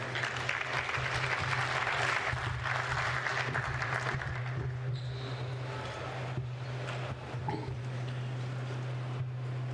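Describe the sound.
Audience applause welcoming two speakers: a faint, steady patter of many hands clapping over a low hum, easing slightly in the second half.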